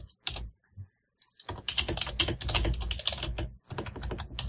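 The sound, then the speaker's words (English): Rapid typing on a computer keyboard, with a few isolated keystrokes and a short pause giving way to dense, fast runs of clicking that continue to the end. “For a second there, I thought you were going to type Unity”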